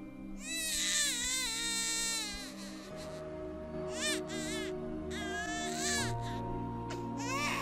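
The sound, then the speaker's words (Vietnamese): A small boy cries upstairs in high, whining wails, with repeated wavering sobs that rise and fall over a steady low drone. “Ở trên tầng có tiếng của thằng bé con Toan khóc lên nheo nhéo.”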